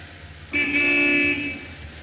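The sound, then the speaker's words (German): A car horn gives one firm toot of just under a second, a bright, steady, fairly loud blast that stops abruptly. “Er hat uns noch gar nicht gesehen. Hup doch mal.”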